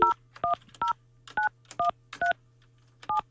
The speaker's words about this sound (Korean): 아, 언니에게 제가 전화해볼게요